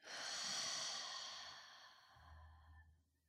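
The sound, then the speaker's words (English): One long, deep exhale during a guided meditation breathing exercise, a soft breathy rush that swells early, slowly thins and fades to near silence at the end. “Deep inhale. Deep exhale. Last one. Deepest breath. And deepest exhale.”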